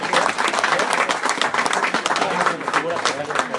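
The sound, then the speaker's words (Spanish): Audience applause at the close of a presentation for young presenters: a dense, continuous wash of many hands clapping that stays at an even, loud level throughout. “Fuerte aplauso para los jóvenes de Panini, por favor.”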